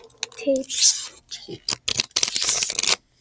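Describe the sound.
Adhesive tape being torn during an ASMR session: a few rough, crackling rips in separate bursts, bright and crinkly, with brief speech in between.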